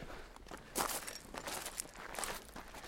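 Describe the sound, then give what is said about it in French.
Soft footsteps walk down a few steps along a tour through a prison: a handful of quiet, scuffing treads in an irregular rhythm, with no talk. “Attention. On a quelques marches. Alors là, il faut descendre un petit peu.”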